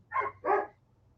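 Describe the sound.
A dog barks twice in quick succession, two short, mid-pitched woofs that are fairly faint and stand alone, with the second bark slightly fuller than the first.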